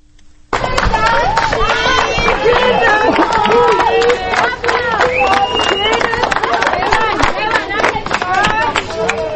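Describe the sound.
Crowd applauding and cheering freed prisoners as they leave a temporary detention facility, a sudden loud burst of dense clapping with shouts and excited voices that keeps going strongly throughout.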